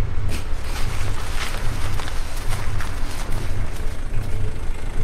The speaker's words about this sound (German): Vor dem Gebäude stehen noch zwei weitere Fahrzeuge. Mist! Da kommt noch ein Wagen.